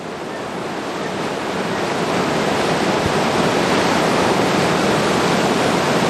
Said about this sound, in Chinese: 潮水撞线站鳌塔，我想这一刻不只是壮观，更是属于盐官、属于钱塘江的经典瞬间。